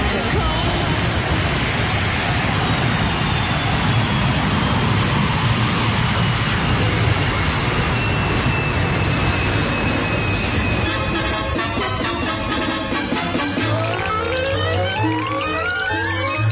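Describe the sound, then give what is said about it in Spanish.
An airplane sound effect: a loud, sustained jet roar with a slowly descending whine, giving way to music in the final seconds. “A la 1:21, cogemos el avión.”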